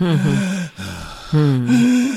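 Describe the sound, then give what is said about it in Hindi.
A voice imitates Kussmaul breathing, the deep, labored air hunger of children with type 1 diabetes, in a few heavy, voiced gasping breaths separated by a brief pause, loud and close. “सांस ज़्यादा चलना जिसको हम लोग कुस्मॉल्स breathing बोलते हैं यानी air hunger”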